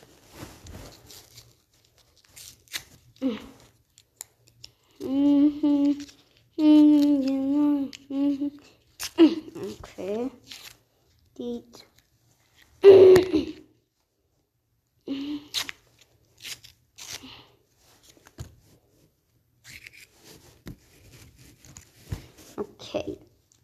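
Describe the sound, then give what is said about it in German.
Crinkling packaging as a chocolate ice cream is unwrapped, coming in scattered short rustles, crackles and clicks, with a voice speaking briefly in the middle. “Und dann würde ich sagen, packen wir mal aus.”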